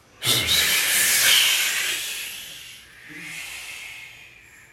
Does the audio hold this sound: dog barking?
no